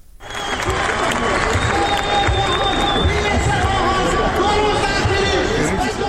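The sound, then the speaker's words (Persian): A crowd of Isfahan protesters camped on the dry Zayandeh River bed swells quickly into loud, steady applause mixed with cheering voices and busy chatter. “این صدای شهروندان اصفهانی است که بر بستر تفتیده و خشک زاینده رود خیمه”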